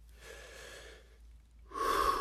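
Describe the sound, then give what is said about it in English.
Deep, slow breathing, as in a relaxation exercise: a long, soft, airy breath, then a short pause, then a second breath that is louder and breathier. There is no talk. “Sit or lay in a comfortable position and take some deep breaths.”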